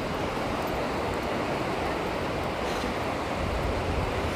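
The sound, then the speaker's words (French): Sea waves washing onto a beach at low tide make a steady, broad rushing wash with no distinct breaks, holding an even loudness throughout. “Je suis sur la plage, je suis partie marcher euh, avec Charlie, c'est marée basse.”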